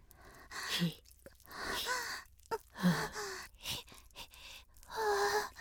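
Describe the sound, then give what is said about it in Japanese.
Breaths drawn in through the nose by someone in labour during childbirth: several breathy, hissing inhalations separated by short pauses, with a faint voiced groan near the end. “鼻から吸って、あと少し。”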